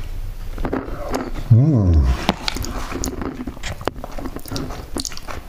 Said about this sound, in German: Na, ihr hört die Zwiebeln. Ich esse gerne Zwiebeln.